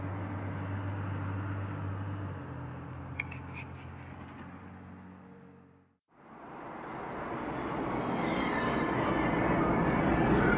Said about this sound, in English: Okay, now I'm recording while driving.